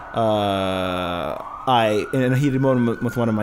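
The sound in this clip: An ambulance siren sound effect, with loud wailing tones that hold steady, dip, break off, then return with shifting pitch.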